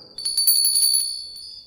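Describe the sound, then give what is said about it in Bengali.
A doorbell rings at a house door late at night, near midnight: a quick run of bright, high metallic rings that blur into a trill and then fade out over a second or so. “এমন সময় ঘণ্টার ধ্বনি শুনলাম দরজার”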